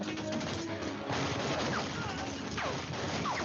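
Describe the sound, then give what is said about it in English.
Machine-gun fire in a video game battle around a building, a dense, sustained barrage of rapid shots and crashing impacts that fills the whole stretch. “It's that machine gun. Don't shoot. They've done nothing but light up this building.”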